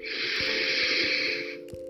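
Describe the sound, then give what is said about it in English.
A deep breath, one long steady airy hiss held for well over a second before cutting off abruptly, loud and close. “seeing if you can extend, lengthen the breath. Taking deep breaths in”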